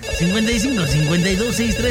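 A telephone ringing with an incoming call, heard as a loud, continuous melodic ringtone whose tune wavers up and down in short phrases.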